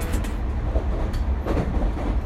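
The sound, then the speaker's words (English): JR Yamanote Line train runs on the rails with a steady, dense rumble of wheels and car noise. Faint higher rail hiss rises now and then, and the sound stays loud throughout with no talk. “This is a Yamanote Line train bound for Shibuya and Shinjuku.”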